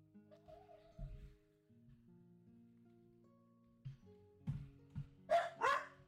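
Dogs barking in a home during a tabletop role-playing game session: two sharp, faint barks near the end, after a few soft low thumps over a steady low hum.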